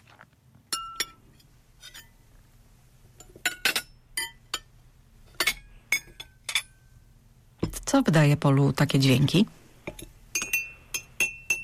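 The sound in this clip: A spoon clinking against a glass: many sharp, bright, ringing taps spaced irregularly. A voice speaks briefly in the middle.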